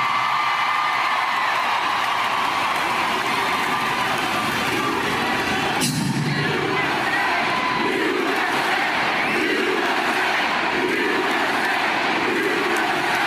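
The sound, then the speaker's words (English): A large crowd chants USA, a loud, dense, unbroken roar of shouting and cheering voices that keeps going for the whole stretch. “Good old-fashioned USA chant, man. Love it. Love to hear that.”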